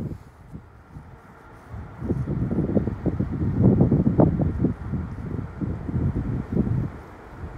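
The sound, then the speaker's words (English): Strong, gusty wind blows outdoors and buffets the microphone with a low, rumbling roar that swells to its loudest midway and then eases, with no voices. “It's also very windy, so I won't be here long.”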